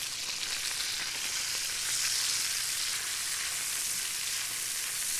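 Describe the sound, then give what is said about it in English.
Bacon sizzles and crackles in a pot as it is stirred, a steady, dense frying hiss that holds at an even level throughout with no voices. “then we're going to give our bacon a little bit of a stir.”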